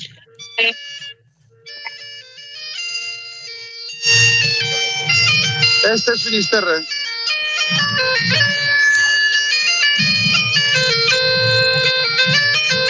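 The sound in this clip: A Galician gaita is played by a female piper from a pipe band, with a steady droning note beneath a bright, ornamented melody that carries on loudly. A voice speaks briefly before the tune begins.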